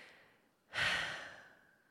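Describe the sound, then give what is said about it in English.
A person breathes in and out: a faint, airy breath fades, then a sharper, louder exhale follows and slowly dies away. No words are spoken. “And if I close my eyes, you know, I can feel my breath.”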